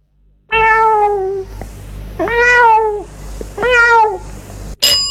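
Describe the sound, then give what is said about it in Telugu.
A cat meowing loudly three times, each call drawn out and tonal with short gaps between, followed by a brief sharp click at the very end. “ఇది పిల్లి అరుపు.”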